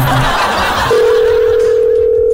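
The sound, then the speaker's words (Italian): Telephone dial tone sounds after a call is hung up: a short burst of muffled noise gives way to a steady, unbroken low-pitched hum that holds evenly and loudly to the end. “Scusi, è la seconda volta che chiamo e la seconda volta mi buttate giù il telefono.”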